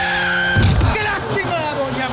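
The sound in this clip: Minibus skidding as it hits a pedestrian crossing an avenue: a sustained horn blast breaks into a screech of tyres and a heavy thud, then noisy scraping.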